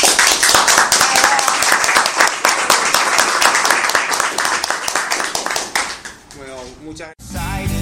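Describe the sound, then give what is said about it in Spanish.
Warm audience applause at a live radio event in Buenos Aires: dense, steady clapping for about six seconds, then fading as a voice and a short musical jingle take over. “Así que nuevamente muchas gracias y los despedimos con este cálido aplauso.”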